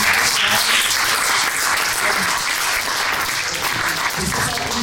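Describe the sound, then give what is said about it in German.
An audience breaks into dense, steady applause that keeps a constant loud level for about five seconds, with no pause or gap. “Und dafür auch nochmal Applaus.”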